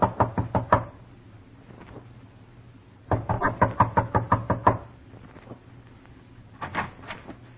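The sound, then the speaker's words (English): Knuckles rap on a door in an old-time radio drama: a quick burst of four knocks, a pause, then a longer rapid run of knocks, and finally a couple of softer raps near the end. “Knock.”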